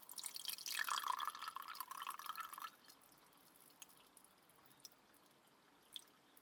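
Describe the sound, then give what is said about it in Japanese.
Hot water poured into a cup for tea, a faint splashing stream that stops after a few seconds, followed by a few soft, isolated drips. “ではここにも湯を注いで、”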